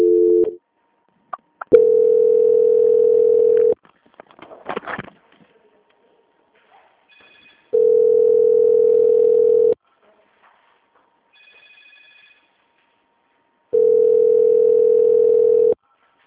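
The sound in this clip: Tones from a telephone line during a customer-service call transfer: three long, steady, mid-pitched tones repeat at even intervals, with brief clicks and a short muffled burst in the gaps between them.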